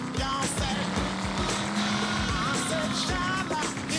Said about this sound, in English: The car's having a hard time just driving through this.